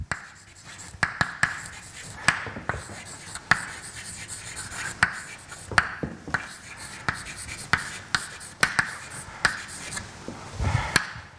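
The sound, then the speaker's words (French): Writing by hand during a lecture as an osmotic pressure equation is set down: many sharp tapping and scratching strokes in an uneven rhythm, fairly clear over a soft background hiss, with no talk. “Donc j'écris l'équilibre de pression osmotique.”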